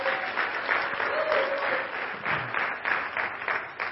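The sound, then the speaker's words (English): Audience applause at a church service: a steady, dense clapping from many hands that holds at an even level for the full four seconds without breaking. “Come on, Dustin. Let's give it up for Dustin back there every week.”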